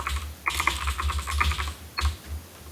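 Typing a comment on a computer keyboard: a quick run of soft, clattering keystrokes, a short pause, then another brief burst of taps, fairly faint and without talk.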